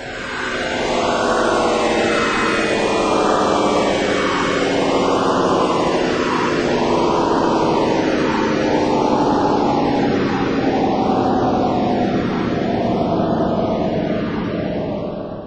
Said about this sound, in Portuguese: Preparar para pouso. Irmãos capelinos, a hora é chegada. Vamos pousar.